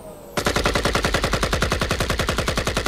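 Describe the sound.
Gunfire in a radio drama: a rapid automatic burst of many evenly spaced, loud shots that starts abruptly after a short quiet moment and keeps a fast, steady rhythm to the end.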